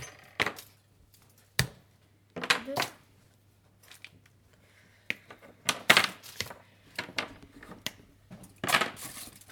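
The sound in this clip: Knives cutting 240 grams of chocolate into pieces, with four people chopping at once: many sharp, irregular clacks and cracks, some single and some in quick clusters, separated by quiet pauses.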